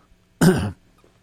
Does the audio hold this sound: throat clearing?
yes